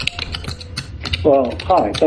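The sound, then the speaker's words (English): Computer keyboard typing comes through a caller's open microphone during a call-in interview. The keystrokes are quick and irregular. Toward the end, a voice speaks over the clicking. “we've got your mic. Need to get that muted. We're getting your typing through here.”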